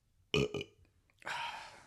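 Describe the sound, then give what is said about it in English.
A burp rises out of a quiet pause in conversation in two quick, loud pulses, with the second slightly weaker, and then breaks off. “If you're going to burp, like, do it.”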